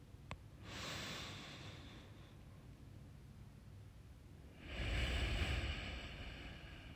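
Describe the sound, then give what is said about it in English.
Slow, deep human breathing, one long soft inhale followed after a pause by a heavier, airy exhale, faint and unhurried with no talking. “So breathe in. And out. Just take a few more deep breaths.”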